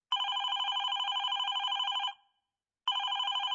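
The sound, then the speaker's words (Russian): A telephone rings in loud, trilling electronic bursts: one steady ring of about two seconds, a brief silence, then a second ring starting. No voices are heard. “Утром позвонил Харви.”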